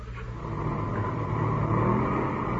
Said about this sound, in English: Motors sound okay.